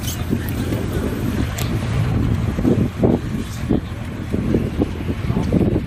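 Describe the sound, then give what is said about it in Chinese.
Firefighters' inflatable rubber boat crossing floodwater on a submerged village road: a loud, steady low rumble with churning water and gusting wind noise throughout. “消防员驾驶橡皮艇穿过积水路段，靠近民房。”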